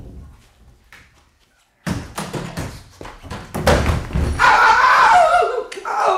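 A person falls while climbing onto a wardrobe: near silence gives way to a sudden heavy thud, then a scatter of knocks and clattering bumps, and a loud, continuous rumbling commotion that carries on to the end.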